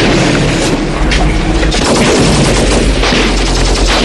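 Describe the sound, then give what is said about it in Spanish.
Dense, continuous gunfire from a war film scene: rapid machine-gun bursts and booming shots overlap with no pause. The sound is loud and harsh throughout. “Y aquí, mientras pasan los disparos”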